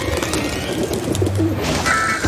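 Pigeons cooing in a city: a brief, soft, low coo over steady background noise.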